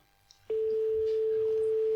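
Telephone ringback tone on a call: one steady, clean mid-pitched ring lasting about one and a half seconds over quiet line hiss.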